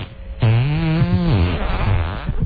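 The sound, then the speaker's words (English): A comedic fart sound effect plays alone as one long buzzy, wet-toned blurt lasting about two seconds, its low rasping pitch wobbling and sagging before trailing off, loud throughout. “here's your dog's requested fart”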